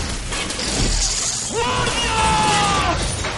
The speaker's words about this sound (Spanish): Saca la espada. Golpea la camilla.